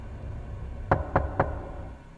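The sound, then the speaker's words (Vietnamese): Three sharp knocks sound on a door from outside, quick and evenly spaced, over a faint low background hum. “bỗng nhiên nghe tiếng lục cà lục cục như là ai gõ cửa ở bên ngoài vậy”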